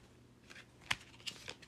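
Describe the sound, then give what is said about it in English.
A few tarot cards fall and are handled, giving soft, faint slaps and rustles. The brief taps are spaced apart, and no one speaks. “Nine of Pentacles at the bottom of the deck. And then a few cards fell.”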